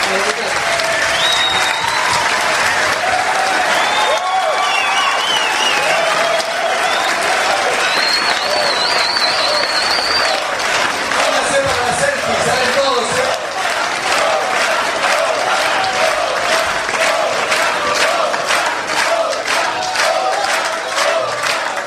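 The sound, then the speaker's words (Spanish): A crowd applauds a band at length, with thick, unbroken clapping and scattered shouts and whistles rising above it. The sound stays loud and even for over twenty seconds. “Un aplauso.”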